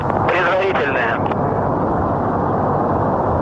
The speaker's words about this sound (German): Engine start commanded. Ignition.